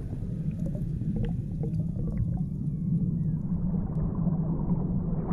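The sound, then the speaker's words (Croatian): Muffled, distorted roar of waves breaking on a beach shore, heard as a steady low rumble without distinct crashes, with faint thin whines above it. “Čujem razbijanje valova o žalo.”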